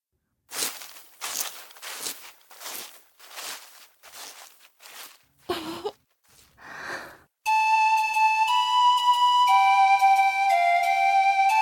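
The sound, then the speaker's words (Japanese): Running footsteps of someone hurrying toward a lakeside tree in a forest: a quick, even run of light steps, then a couple of softer scuffs and a sustained series of bright musical tones. “シュリはある場所へとかけていった。”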